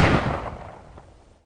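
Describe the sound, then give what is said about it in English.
A single gunshot gives a sharp broad crack that fades into a rumbling tail over about a second and a half. “Suddenly, a shot rang out, and Doherty felt his knees grow weak.”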